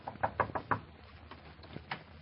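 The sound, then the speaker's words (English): Knocking on an old-fashioned kitchen door: a quick, even run of about five sharp raps, followed by a few fainter, scattered knocks. “Imagine a salesman of tomorrow knocking at the door, the old-fashioned kitchen door.”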